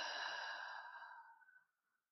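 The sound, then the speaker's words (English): A single long, deep exhale through the open mouth during a breathing exercise, a soft breathy rush that holds steady and then tapers away to silence. “pull that breath into the deepest part of your belly. And then as you exhale, open and exhale through your mouth.”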